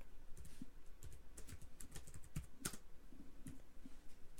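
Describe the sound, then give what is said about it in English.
Typing on a laptop keyboard: rapid, irregular keystrokes, soft and fairly faint, with no voices. “Let me type that in because it's not in here for some reason.”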